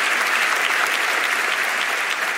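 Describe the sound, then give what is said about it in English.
Applause from a church audience, many hands clapping in a dense, even wash that holds steady and fairly loud throughout, with no voices over it. “How about a big hand clap for all of them? God bless you guys. Come on, give a good hand, everybody.”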